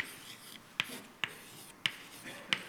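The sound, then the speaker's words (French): Writing during a mathematics lecture: four sharp, evenly spaced taps of the writing tool striking the surface, each followed by a short scratch, over a faint steady background. “Je vais écrire d2”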